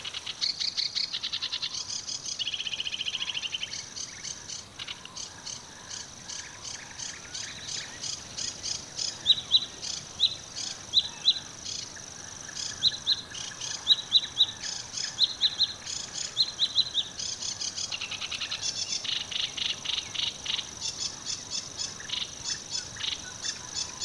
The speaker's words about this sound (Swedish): Så hör vi skrattmåsarna bakom den här buskridån.